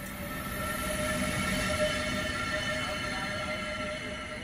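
A train trundles along rails in a continuous, even rumble with steady high whining tones on top. The sound stays unchanged and no voices are heard.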